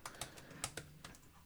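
Faint, unhurried keystrokes on a computer keyboard, several light clicks at uneven intervals with no voices.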